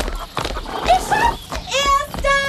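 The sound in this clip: Horses gallop toward a farmyard gate, their rapid hoofbeats thudding under excited voices, with a loud, high horse whinny rising near the end.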